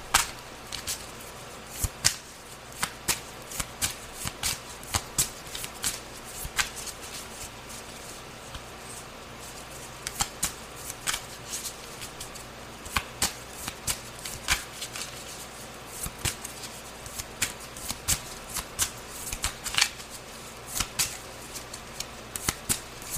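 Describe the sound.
Playing cards are shuffled and handled during a card reading, giving many sharp, crisp papery snaps and riffles in an irregular rhythm. The clicks come in quick bursts with short pauses, steady in loudness, with no voices.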